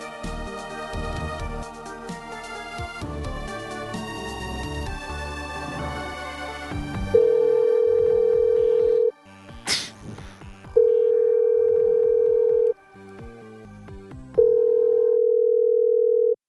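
Telephone dial tone while placing a call: a steady, sustained tone sounds three times, each lasting about two seconds with short gaps between, after a busy stretch of other sound.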